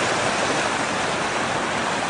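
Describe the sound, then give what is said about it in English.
Creek water flowing over rocks, a steady, even rushing hiss that runs unbroken and fairly quietly through the whole clip, with no voices. “This is our creek, Chattahoochee Creek, that has some nice fish in it, and ducks.”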